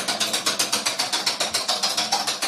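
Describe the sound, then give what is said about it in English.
Game-show prize wheel spinning: many rapid, evenly spaced mechanical clicks tick along at a steady pace, with no voices. “let's go to the wheel”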